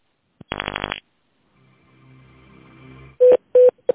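Telephone keypad tones dialing an extension on a company's automated phone menu: a few short, loud, steady beeps arrive in quick succession after a quieter stretch of low hum.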